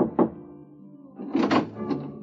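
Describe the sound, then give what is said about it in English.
Knuckles rap on a hotel private-room door marked 4, giving one early knock and then a few more in a brief cluster about a second later, each a dull, muted thud. “you rub your knuckles against the door marked 4”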